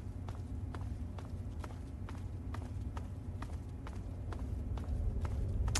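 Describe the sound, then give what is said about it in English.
Footsteps of a video game character walking form a steady, evenly paced run of many crisp steps over a constant low rumble, continuing without a break from start to finish. “Just trying to minimize a walking time.”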